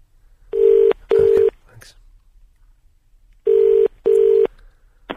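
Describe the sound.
Telephone ring tone as heard down a phone line while a call is placed: two pairs of steady, buzzing double bursts of a low-mid tone, separated by a pause of about two seconds.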